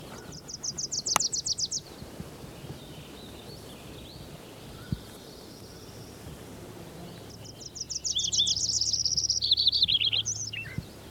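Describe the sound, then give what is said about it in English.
Wilson's Warbler song: two bouts of rapid, high, chattering notes repeated in quick series, the first brief and the second longer, with a soft steady background hiss between them. “I think there was a Wilson's Warbler in there.”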